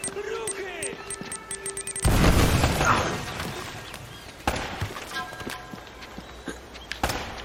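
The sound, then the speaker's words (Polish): Grenade explosion in a video game: a sudden loud boom about two seconds in that rumbles and slowly dies away. Sharper bangs follow later, and players talk throughout. “O, granat!”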